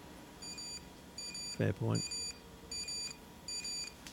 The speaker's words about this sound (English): So that noise was him getting a hit on one of the emails.